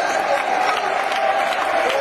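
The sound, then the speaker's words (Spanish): A church audience applauds during a Spanish-language service, a dense, continuous wash of clapping with crowd noise and voices mixed in throughout. “Denle un aplauso de reveras.”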